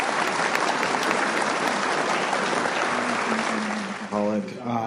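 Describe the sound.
An audience at a recovery meeting applauding: steady, dense clapping for about four seconds that then thins out as a voice starts talking.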